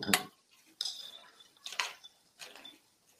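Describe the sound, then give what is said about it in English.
A spoon clinks in a bowl of cereal with milk, making four faint, bright taps spaced well apart, with quiet moments between them. “I got this spoon where I don't pick up the milk. It's my cheat code right there.”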